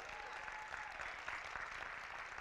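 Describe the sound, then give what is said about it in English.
Applause from a church audience giving a hand clap of praise during a sermon, a dense, steady wash of many hands clapping that holds at an even level throughout. “And so in this deliverance process, just give God a hand clap of praise.”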